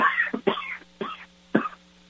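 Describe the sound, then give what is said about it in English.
Coughing and throat clearing from someone troubled by pollen in the air: a few short, rough bursts, the first longest and loudest, separated by brief pauses, with no words spoken. “excuse me, we got a lot of pollen in the air around here, and everybody's coughing and hacking all over the place”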